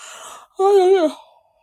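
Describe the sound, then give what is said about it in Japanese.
A person yawns once: a breathy, airy stretch comes first, then a short, loud, voiced moan with a slight waver that trails off into quiet. “あくびばっかりしている。”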